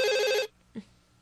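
A telephone ringing with an early morning call: one short, faint burst of buzzing electronic ring, lasting under half a second, then near silence.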